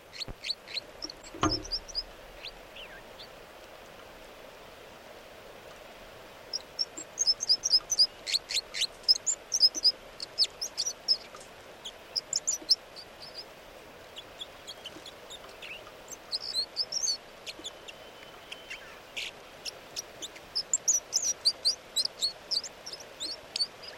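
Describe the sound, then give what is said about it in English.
Bird song, heard as many brief, high chirps and twittering notes in bursts that come and go over steady faint background hiss, busiest through the second half. “And these are the vocalizations of song of bird 305.”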